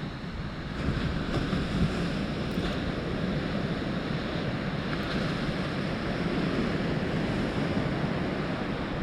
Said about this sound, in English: And with each wave you hear breaking on the shore, sense the energy that is coming from the sea.